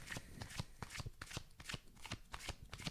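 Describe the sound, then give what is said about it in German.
A deck of cards being shuffled by hand, with a steady series of faint, crisp riffling bursts and no voices. “Ich bin so schlecht im Mischen. Ist ja egal. Nimm dann einfach eine Karte”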